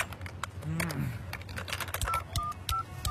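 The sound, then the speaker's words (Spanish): Telephone keypad tones dialing a number with a calling card: a few short, clear beeps in quick succession, with a voice and background noise heard just before them. “ahora marcarle a mi mamá con la tarjeta.”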